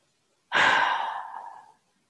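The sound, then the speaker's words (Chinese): A single long exhale releasing a held breath during a guided breathing exercise. It starts abruptly as a strong breathy rush, then steadily fades over about a second, with no talk. “吸气，hold 住，一、二、三， 吐气”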